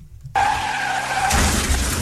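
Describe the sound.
Car tires skid in a taxi accident sound effect: a sudden loud, sustained screech that starts abruptly and turns rougher and noisier partway through.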